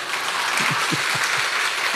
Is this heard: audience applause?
yes